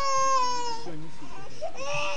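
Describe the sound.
A baby cries in loud, wavering wails that rise and dip. The cry runs through the whole clip with only brief breaks.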